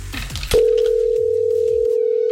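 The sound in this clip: Call tone from an outgoing telephone call: a steady mid-pitched beep starts after a short burst of background noise and holds unbroken for about two seconds.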